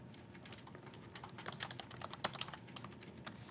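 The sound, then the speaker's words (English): Credentials being typed on a computer keyboard: many quiet, quick key clicks in an uneven rhythm, heard alone and faint throughout. “If I can type the same thing. Okay, probably typed the first one wrong.”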